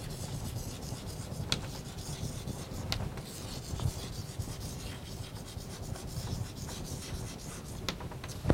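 Writing on a board during a mechanics lecture, a faint, continuous scratchy rubbing broken by a few sharper strokes, with no voices.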